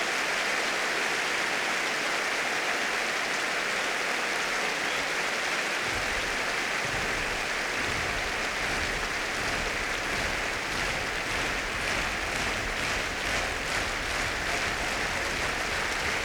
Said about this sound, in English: And as you can probably hear, the audience like that very much indeed.